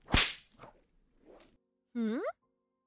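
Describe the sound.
A whip lash: one sharp, loud crack at the start, followed by faint breathy vocal sounds and a brief, high, wavering voiced cry near the end.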